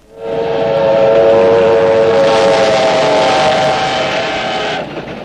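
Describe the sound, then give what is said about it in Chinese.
A military train speeding past at night gives a loud, sustained horn-like drone of layered steady tones over rushing rail noise, holding evenly before dropping off abruptly near the end. “一列军用火车在夜色中奔驰而过”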